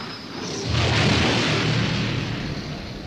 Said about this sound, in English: His determination was rewarded when, after saturating it with fire, he saw it erupt in a spectacular ball of super-hot gas.